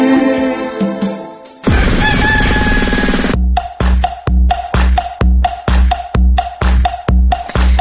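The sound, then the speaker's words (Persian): A rooster crows at dawn with a single loud, drawn-out call in the middle. Other tonal sounds come before it, and a run of many short, regular pulses follows. “خروس سحری ما صداش در اومد”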